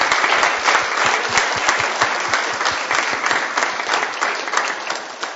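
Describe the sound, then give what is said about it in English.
Sustained applause from the audience at a Sabbath day service, a dense, even wash of many hands clapping at a steady, fairly loud level throughout, easing slightly at the very end. “Give them another round of applause for”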